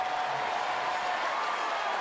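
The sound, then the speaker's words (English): A paid crowd of 35,085 at Oriole Park at Camden Yards rises in a standing ovation on a sunny Sunday for Jackson Holliday's first major league hit. The cheering and clapping form a steady, dense roar throughout. “Standing ovation from the paid crowd of 35,085 watching on a sunny Sunday at Oriole Park at Camden Yards.”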